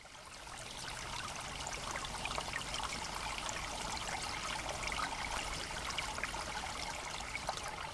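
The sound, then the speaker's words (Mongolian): A small brook gurgles and trickles beside a road, a steady, even rush of flowing water that continues unbroken from start to finish with no voices. “Замын хажуугаар нарийнхан горох хорчгнэн урсч”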